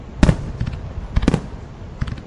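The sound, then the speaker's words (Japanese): Fireworks burst at a fireworks festival: two loud booming blasts, each trailed by lighter crackling pops, with a few further scattered pops near the end. “ずっとこの花火大会を楽しんでいきたいんですトリコさんと2人で”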